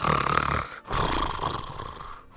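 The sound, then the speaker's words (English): A voice imitates a man snoring as he sleeps slumped in a bakery chair after pizza and rum: two rough, rattling, throaty snores with a brief break between them, fairly loud and heard alone. “And he's just snoring away.”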